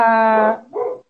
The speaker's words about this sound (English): sorry, my dog is going on